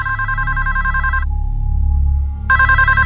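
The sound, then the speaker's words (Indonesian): A telephone rings with a bright electronic ringtone, a sustained warbling burst that stops for about a second, with a low hum underneath, then starts again. “Belum sampai keluar kamar, telepon itu berbunyi lagi.”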